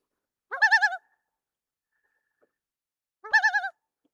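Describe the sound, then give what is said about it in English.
The tremolo, or laughing call, of a common loon: two short, wavering, yodel-like bursts separated by about two seconds of silence, clear and alone. “So that's the tremolo, or laughing call, of the common loon.”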